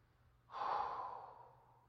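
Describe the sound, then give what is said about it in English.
A single soft, airy breath during a guided meditation swells quickly, then slowly trails off over about a second and a half, faint and alone with no talk. “breathing, exhaling,”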